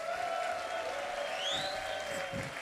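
Audience applause for a band at a live concert, a steady wash of clapping with a brief rising whistle partway through.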